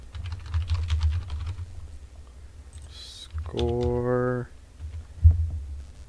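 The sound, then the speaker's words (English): Typing on a computer keyboard: a run of quick, light key clicks over a low hum, followed later by a brief tonal sound and a single heavier thump. “Here, type in Google up there.”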